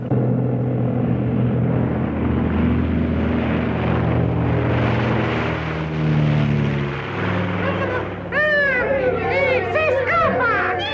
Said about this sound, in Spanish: Proteo, en cuanto tuvo cerca el avión, saltó sobre él sin ningún problema? Y después se elevaron